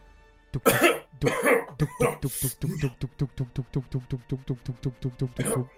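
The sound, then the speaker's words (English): Coughing from someone in the back seat of a ride: a few harsh, breathy bursts, then a long run of quick, evenly spaced hacking pulses that continue to the end. “And Ted takes a strain as he's back in the back seat coughing”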